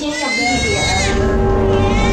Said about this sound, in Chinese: 二宝出来了，出来就哭了啊